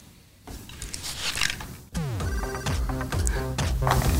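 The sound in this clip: A telephone rings with bright, repeating electronic tones that start partway through, after a brief stretch of duller noise, with no talk.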